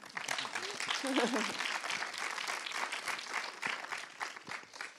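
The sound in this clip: Audience applause welcomes filmmakers at a special film screening, a steady, dense patter of clapping that continues throughout, with a voice briefly audible.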